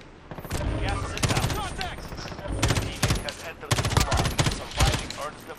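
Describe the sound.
Rapid automatic gunfire from a shooter in a first-person video game rattles in loud, dense clusters of shots with short pauses between bursts, continuing throughout.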